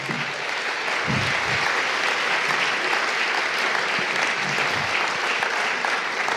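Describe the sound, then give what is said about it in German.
Audience applause after a lecture: dense, steady clapping from a crowd that fills the whole stretch at an even level, with no break and no voices standing out. “Da dürfen Sie gerne noch mal klatschen.”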